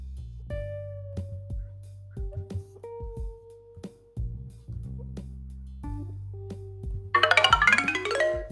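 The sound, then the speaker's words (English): A playful electronic page-turn signal for a read-aloud story: a sequence of bouncy, boinging synth tones stepping between pitches, ending in a bright, glittering chime-like shimmer. “I have a new sound to help you know when to turn the pages. Do you want to hear it? Okay, here goes.”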